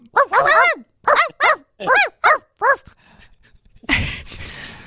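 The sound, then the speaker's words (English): A voice imitates a car that barks like a dog in a White Castle parking lot, giving a quick run of yapping barks and then several evenly spaced, loud, pitched barks. “He parks his freaking barking car right next to us. I mean, just imagine sitting in a White Castle and the car next to you is going,”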